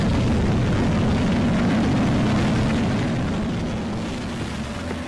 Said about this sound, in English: Rocket Lab successfully placed 3 miniaturized research satellites into low Earth orbit. 5, 4, 3, 2. Ignition.